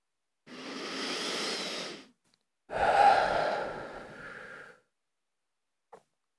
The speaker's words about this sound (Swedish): ta ett djupt andetag